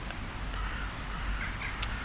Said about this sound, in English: Now I'm situated under several crow's nests, but look, there's no harm.